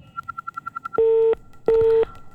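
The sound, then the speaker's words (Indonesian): Phone line tones after a caller's call drops: a quick run of short, high beeps, then two long, steady, lower-pitched tones separated by a brief gap. “Sepertinya terputus. Baiklah, silakan dicoba lagi ya”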